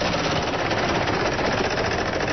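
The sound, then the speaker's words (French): Rapid clattering of a prize wheel spinning in a game: a dense, steady, loud stream of fast ticks that holds an even level throughout, with no talking. “D'abord tu fais tourner la roue.”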